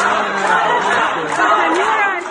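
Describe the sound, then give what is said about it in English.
Dozens of audience members at a Christmas concert at the American University in Beirut chant and taunt a former Lebanese prime minister. Their voices merge into a loud, sustained, rhythmic crowd clamor. “Dozens of people in the audience started taunting the former leader, chanting, "Revolution, revolution."”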